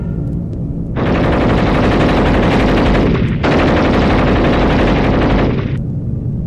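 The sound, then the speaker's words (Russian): A machine gun fires at Messerschmitt aircraft in two long, loud, continuous bursts separated by a brief break, with no voices over the rapid rattle. “Расчет к пулемету! Воздух! Население в щели! По замыкающему мессеру упреждение два силуэта! Огонь!”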